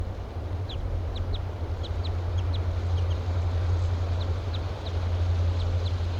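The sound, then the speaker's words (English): A bird gives short, high flight calls: many brief, thin chip notes, often in quick pairs, ring out above a constant low, loud hum. “Three gave some near flight calls.”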